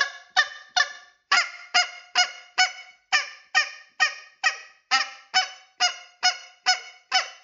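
Two-note goose honks made while practising calls for late-season goose hunting, repeated many times in a quick, steady rhythm. Each note is loud and brassy and cuts off sharply, with no talking.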